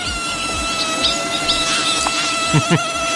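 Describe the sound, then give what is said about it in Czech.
A mosquito buzzes with a steady, high, thin whine that stays at a constant pitch throughout. A few brief chirping sounds rise over it. “Tohle je zvuk, který mě štval dneska celou noc. Máš ráda komáry?”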